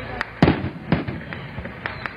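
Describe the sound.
Fireworks explode at the opening ceremony of a huge container port at the Caribbean entrance of Panama's canal: several sharp, loud bangs with uneven spacing, some louder than others.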